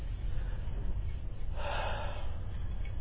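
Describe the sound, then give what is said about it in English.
A single deep breath drawn in sharply midway through, rising briefly over a steady low background hum during a meditation class in Armadale. “So take a couple deep breaths.”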